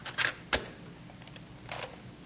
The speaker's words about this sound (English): He eyes the labels, cocking his head, and inserts one into the machine. The father closes the lid and presses play.